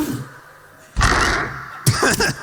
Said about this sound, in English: can you get the door on this side, please? Hold it.